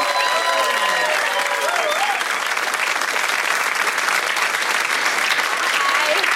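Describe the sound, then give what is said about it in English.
Audience applause welcomes a guest onto a show, a dense, steady wash of clapping that holds at full strength for the whole stretch without pause, with a few brief whistle-like cheers near the start. “This is my wife, Holly Ive. Give it up, everyone.”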